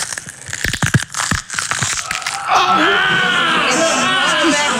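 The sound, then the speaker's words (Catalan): Crunching cracks come from a celery stalk being snapped and twisted to imitate an arm's bones breaking. A rapid run of sharp, crackling snaps is followed by loud, sustained voices. “Com algú que li agafen el braç i li rebreguen el braç i se li trenquen els ossos. Sí. Això ho estem fent amb una branca d'api.”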